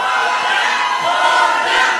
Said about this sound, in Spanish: Así que un aplauso para ustedes.